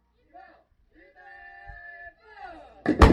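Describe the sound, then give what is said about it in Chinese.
Artillery guns fire a live round during a firing drill, a single sharp, loud blast bursting out at the very end after a stretch of a man speaking. “射击指挥所开始射击，炮一连、炮二连、炮三连，第一炮发射”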